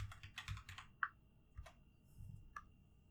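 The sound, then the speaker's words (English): Computer keyboard typing during a quick online search: quiet, sparse key clicks tap out in a loose, uneven rhythm against a soft low background. “I'm gonna Google something real quick because I forgot the name of the other very important character in this.”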